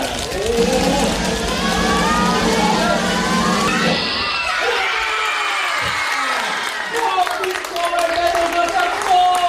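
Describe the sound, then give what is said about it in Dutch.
Children screaming and cheering loudly as the Kinderjury 2026 winner in the 10-to-12 category is announced at the award ceremony. Shrill shrieks and crowd noise run continuously throughout, with a short dip in intensity midway. “Er werd zo hard gegild dat het bijna niet te horen was, maar het was toch echt een rugzak vol van Pieter Kolwijk.”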